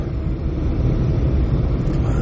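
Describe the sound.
Truck driving down a highway, heard as a constant, loud, low road rumble with engine drone that stays steady throughout, with no talking.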